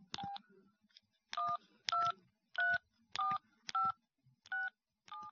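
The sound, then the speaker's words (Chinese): Mobile phone keypad dialing tones: eight short, clear dual-tone beeps in an uneven rhythm with brief pauses between them. The beeps are fairly faint and heard alone, with no talking. “这一个小时以后，这个丈夫用手机就给妻子打电话”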